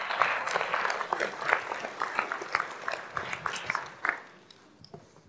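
A church audience applauds to welcome a preacher, with dense, steady clapping from many hands that thins out and fades toward the end.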